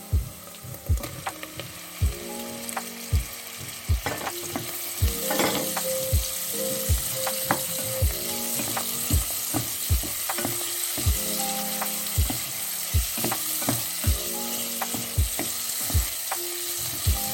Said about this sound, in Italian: E adesso possiamo aggiungere la carne.